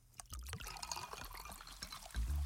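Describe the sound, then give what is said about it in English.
A can of Pepsi poured out, a continuous fizzing, trickling stream of liquid that runs steadily throughout at moderate loudness. “so go ahead, crack open a Pepsi”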